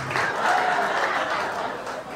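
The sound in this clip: A comedy club audience applauds in a steady, dense wash of clapping that holds at a moderate level throughout, easing slightly at the end.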